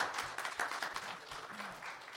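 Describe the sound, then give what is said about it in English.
Faint applause from an audience in a church auditorium: a steady wash of many hands clapping, with low murmuring voices underneath. “Let's give them a round of applause for all their work they did on Friday.”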